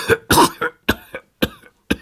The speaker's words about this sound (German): Während mehrerer Minuten vermochte mein armer Freund vor lauter Husten nicht zu antworten.